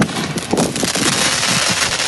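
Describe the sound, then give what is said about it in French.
Firework mortar shots go off in a dense run of sharp crackling bursts, many overlapping reports that stay loud and steady throughout with no pauses between them. “10 euros pour un mortier 8 coups, 40 euros pour 198 coups ou encore 60 euros pour 380 coups. Il y en a pour tous les prix, avec exemple à l'appui.”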